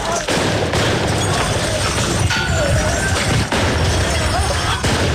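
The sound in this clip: Street protest in France, with a dense, loud, continuous din of crashes and explosions and a few sharp bangs breaking through the constant noise.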